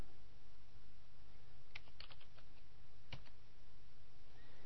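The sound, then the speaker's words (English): Search query typed on a computer keyboard: a few quick keystroke clicks in two short bursts, faint over a low steady hum. “And what you do is simply enter a question into the search bar here. Let's say scrapbook ideas.”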